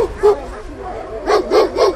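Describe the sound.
Dog barking in a shelter kennel: a few short, sharp barks, one single bark early and then three in quick succession near the end, with a low rumble between them.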